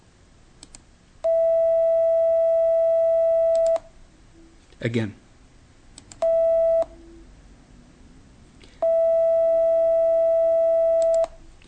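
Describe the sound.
A reference tone of the musical note mi plays three times as a steady, pure sustained pitch: a long hold, a short repeat, then another long hold. A brief spoken word comes between the first and second tones.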